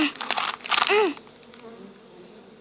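A brief, lively buzzing from Maya the Bee rises in short fluttering bursts for about a second, then fades to a faint, quiet hum.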